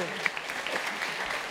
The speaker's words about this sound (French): Il y a eu des applaudissements. Oui, on peut l'applaudir.